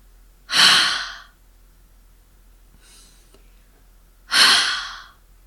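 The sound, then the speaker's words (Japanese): Two forceful exhales of warm breath blown onto an open palm, each a loud breathy rush that swells and fades over about a second, separated by a quiet pause with a faint soft breath between. “冬の寒い日に手のひらにあったかい息をかけると思って、思いっきり息を吐いてみましょう。こんな感じです。”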